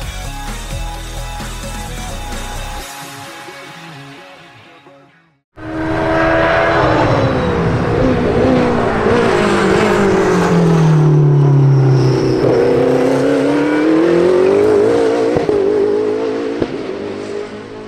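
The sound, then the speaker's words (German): Engine roar of a Porsche 963 LMDH race car during Sebring testing: a loud, sustained engine whose pitch sinks and then climbs again. Before it, a different sound fades out into a brief gap. “das ist der Sound des neuen Porsche 963 LMDH und das war der Sound bei den Testfahrten der IMSA, nämlich in Sebring”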